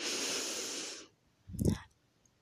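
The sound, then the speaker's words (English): A deep inhale drawn through the diaphragm in a guided breathing exercise: a steady, breathy rush lasting about a second, followed after a pause by a shorter, lower puff of air and a faint click at the end. “So on the count of three, we are going to take a deep breath, inhale, expanding our diaphragm.”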